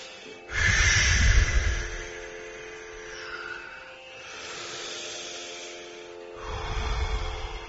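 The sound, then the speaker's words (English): Long breathing exhales during a guided relaxation exercise: a few drawn-out, airy hissing breaths, the first and last louder and fuller, with softer breaths between them. “And breathe in and out a little. Do these long exhales, really, like as if you wring out an old cloth.”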